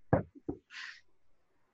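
Knocking on a wooden surface: two firm, distinct knocks with a faint softer tap between them, followed by a brief quiet hiss.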